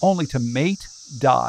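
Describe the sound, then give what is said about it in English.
Brood X periodical cicadas chorusing, heard as a steady, high, unbroken drone beneath a person speaking. “Hear that? That's the sound of Brood 10. After 17 years underground, billions, maybe even trillions, of cicadas are emerging in one big group,”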